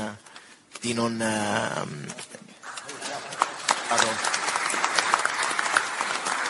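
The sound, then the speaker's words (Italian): Applause greeting the President of the Italian Senate as he joins an event, rising after a stretch of talk and continuing as dense, steady clapping with sharper individual claps standing out. “l'applauso a lei, grazie davvero per averci raggiunti”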